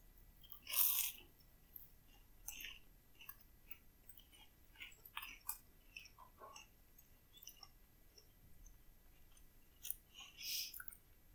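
Someone chews toasted Mother's Pride raisin bread: quiet, crisp crunching bites, one louder crunch near the start and another toward the end, with many small moist chewing clicks in between and no talk.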